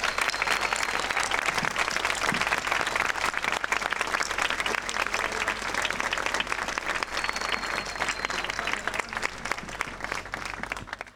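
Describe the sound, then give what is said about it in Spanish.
Applause from a crowd at a plaque unveiling fills the whole stretch: dense, even clapping that stays loud and steady from start to finish, with no single claps standing out. “por respeto a Nora Cortiñas esperamos y aplaudimos desde acá también porque están descubriendo la placa de Norita.”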